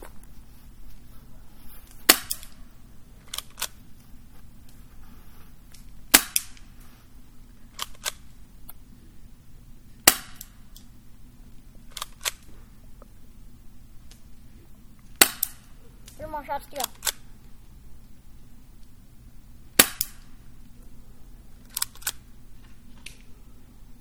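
An airsoft gun fires black BBs at home, giving many sharp, dry snaps spaced a few seconds apart, each a short crack standing out above a quiet background.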